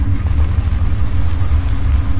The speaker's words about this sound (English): Just turn on the car and let's get out of here.